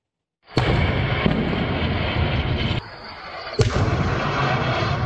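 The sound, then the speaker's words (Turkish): A series of explosions from strikes in Gaza: a few sharp blasts cut through a continuous loud, rumbling roar that dips briefly before another blast. “Peş peşe patlamalar yaşandı, yine masum sivilleri hedef aldılar.”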